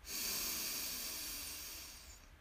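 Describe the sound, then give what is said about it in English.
One long, deep inhalation during a guided breathing exercise, a soft airy hiss that holds steadily for about two seconds before tapering off, with no talking. “Deep breath in and out.”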